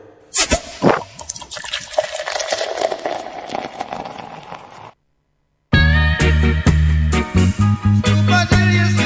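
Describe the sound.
Wine being poured into a glass for a toast: a gurgling liquid stream with drips for about five seconds, then a short silence followed by a louder, steady tonal sound.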